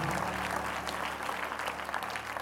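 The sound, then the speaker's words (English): An audience at First Pentecostal Church applauds a welcome for visiting guests, with steady, dense clapping held evenly throughout. “Let's give them another warm First Pentecostal Church welcome.”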